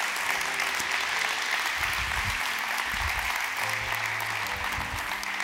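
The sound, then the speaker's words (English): Sustained applause from a church audience welcoming a group onto the stage, with dense, steady clapping throughout. “Would you put your hands together at all campuses and welcome this group here on stage?”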